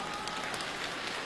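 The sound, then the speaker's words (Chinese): Audience applause during a stage comedy act in Beijing, a dense, steady patter of many hands clapping that stays fairly faint and even through the brief stretch. “前两天海淀呢就这么鼓掌的，好几个中奖的。”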